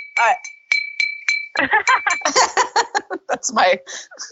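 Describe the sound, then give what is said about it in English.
A San Pellegrino glass water bottle clinks a few times with bright, ringing tones, then a burst of lively voices and laughter follows while the ring fades. “That's my San Pellegrino water bottle.”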